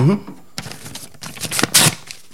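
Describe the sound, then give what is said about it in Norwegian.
A kitchen-type knife slits open a paper envelope holding a letter: scratchy, crackling paper rasps in several uneven bursts, growing louder and coarser toward the end. “Eller ikke en brevkniv, men det en kniv ja. Som jeg bruker til å åpne brev.”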